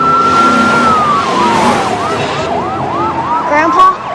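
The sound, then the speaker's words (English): Police cars speed past down a street with sirens blaring, a loud long tone sliding lower into rapid rising-and-falling wails over engine rumble. “followed closely by the cops as they speed past Reese”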